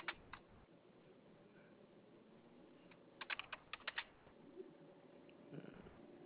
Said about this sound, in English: Give me one more to get this typed up.